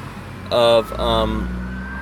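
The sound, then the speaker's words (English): An ambulance siren passes by, two brief tonal wails over a steady low road rumble, with a thin tone lingering afterward. “I think the appeal, it's an ambulance. Up here, they have private ambulance companies.”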